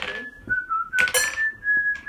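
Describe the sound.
People whistling during a tabletop role-playing game: a clear, sustained whistled tone with small slides in pitch, broken by short breathy gaps and soft clicks.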